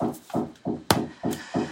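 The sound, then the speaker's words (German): Knocking from construction work in the background: a steady series of dull, woody hammer-like blows repeats at an even, fairly quick pace, moderately loud, with one sharper crack among them. “hier wird gerade im Hintergrund ein bisschen gebaut, deswegen bitte ich das Klopfen zu entschuldigen.”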